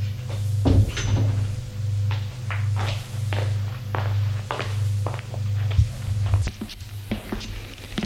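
A door opens inside a house at night, then footsteps follow in a steady run of soft thuds over a constant low hum.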